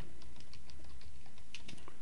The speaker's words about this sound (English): So I'm going to type in YouTube